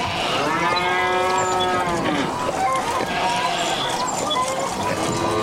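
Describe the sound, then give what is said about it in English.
A human voice imitates farmyard animals, giving a run of long, drawn-out cow moos with a rich, wavering tone that continues loudly without a break. “My impression of a farmyard in Leighton Buzzard.”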